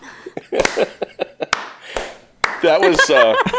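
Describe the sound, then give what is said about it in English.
A few slow, sharp hand claps, unevenly spaced, while people talk around them. “Should we clap? I feel like this is a clapping moment. You know, slow clap.”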